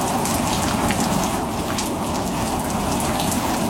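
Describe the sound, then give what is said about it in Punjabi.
Heavy rain pours down in the middle of the night as a dense, steady hiss and patter that stays loud and even throughout, with no voices. “ਤੇਜ਼ ਤੇਜ਼ ਐਨ ਮੁੜ ਧਰ, ਤੇਜ਼ ਮੀਂਹ ਪੈਣਾ ਸ਼ੁਰੂ ਹੋ ਗਿਆ।”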